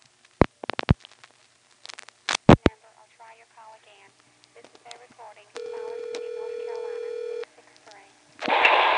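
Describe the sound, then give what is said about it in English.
Touch-tone DTMF beeps as a telephone number is dialed, short sharp tones in two quick groups, followed by brief talk and a long steady tone, then a burst of noise at the end. “Let's make sure it's really not the same. I'm going to dial 63.”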